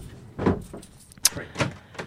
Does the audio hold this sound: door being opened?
yes